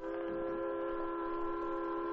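A steam train whistle sounds as a train approaches along a railroad track near a hilltop summit. A loud, steady, multi-toned whistle holds without a break for the whole clip, with a faint low rumble beneath.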